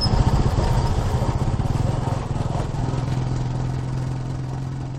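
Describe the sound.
A motorcycle engine runs steadily during a ride on a rural route toward a hilly village, making a continuous low throbbing drone with rapid pulsing and no voices.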